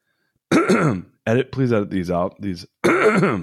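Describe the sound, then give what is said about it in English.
Throat clearing by a man partway through speaking, a few rough, voiced bursts separated by short pauses, fairly loud and close. “Sorry, I have to clear my throat.”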